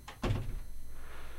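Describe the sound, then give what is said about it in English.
A door closes with a single dull, low thud, followed by a faint lingering hum. “Gosh, you can hear doors. You can hear doors close with this.”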